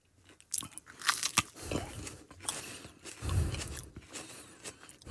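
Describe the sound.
Biting and chewing into the tip of a hot chili pepper, a run of crisp, irregular crunches and wet chewing noises that come in bursts of varying loudness, with no talking.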